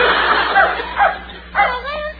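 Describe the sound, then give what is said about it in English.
Dog barking, a mongrel: a few short, sharp yipping barks and whines in quick succession, fairly loud over a steady low hum. “I think he's a thoroughbred mongrel.”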